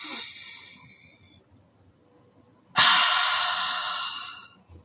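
Two long, airy breaths taken as a deliberate deep breath. The first is moderate and fades out, and after a short silence the second breath comes in loud and full and holds for about two seconds.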